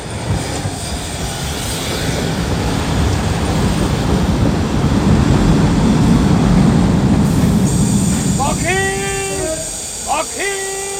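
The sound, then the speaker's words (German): A train arrives with a loud, sustained rumble of railcars and wheels that builds and then eases. Toward the end, high metallic wheel squeals ring out in a few bursts. “Na, da ist er ja, der Zug.”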